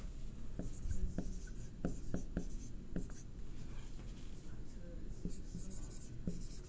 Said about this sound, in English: Let me just write this.